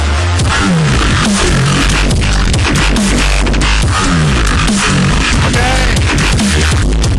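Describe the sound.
Loud electronic music blasts continuously, with heavy distorted bass and dense, busy beats, and a voice speaks briefly over it.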